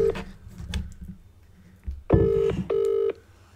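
Touch-tone keypad beeps as a telephone is dialled for a call: two clear, steady tones, each about half a second long, following a few faint knocks and handling sounds.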